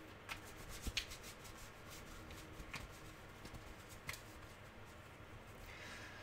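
Soft rustling and a few faint papery snaps come from playing cards being drawn from a deck, two at a time, quiet and without talk.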